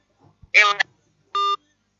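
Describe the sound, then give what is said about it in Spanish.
A telephone call on a radio program cuts off, marked by a brief warbling tonal burst followed by a single steady electronic beep, then silence. “Se cortó la llamada”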